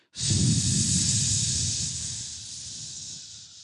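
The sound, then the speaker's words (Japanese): A deep belly inhalation during a voice-training breathing exercise: one long, loud, hissy intake of air that holds steady and fades slightly toward the end, with no talking over it. “お腹を意識して吸ってみましょうじゃあお腹が突き出るように”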